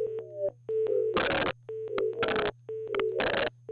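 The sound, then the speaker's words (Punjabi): A phone call fails to connect on a telephone line. Short steady beeping tones repeat, broken by three loud bursts of harsh static over a constant low hum. “ਲੱਗਦਾ ਜੀ signal 'ਚ problem ਹੈ, ਕਾਲ connect ਨਹੀਂ ਹੋ ਪਾ ਰਹੀ।”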